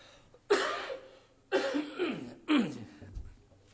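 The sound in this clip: Coughing from something stuck in the throat: three loud, harsh throat-clearing coughs about a second apart, with smaller catches between them and no talking.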